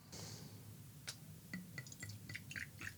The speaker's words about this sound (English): So I'm just doing like 2 ounces of gin and 1 ounce of vermouth so I don't have to do math.